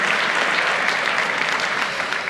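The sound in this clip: An event audience applauds to welcome a speaker from Vienna before his talk. The clapping is dense and even, with no voices over it.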